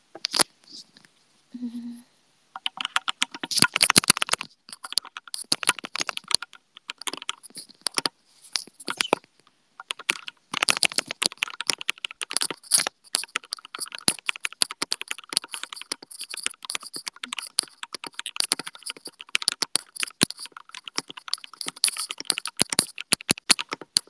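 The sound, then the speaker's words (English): Rapid keystrokes on a computer keyboard during a typing speed test, crisp clicks coming in dense bursts with short pauses, after a brief tone at the start. “Let's see how many words per minute I can type right now.”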